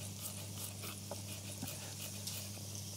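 Garlic slices sizzle in a hot pan with onions, a faint, steady, even hiss with a few tiny pops over a low hum and no talking.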